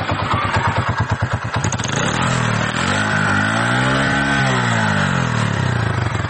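A milk seller's motorcycle engine runs loud and steady throughout, with a pulsing throb early on, then a smooth rev that rises and falls in pitch through the middle before it settles into a constant drone.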